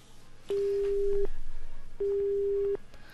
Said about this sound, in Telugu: Okay, maybe let's try to connect her again on air. Call drop అయినట్టుంది.